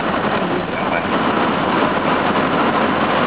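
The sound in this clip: Steady engine and road noise from a car driving around construction in Belton. The hum holds level and continuous, with no distinct events.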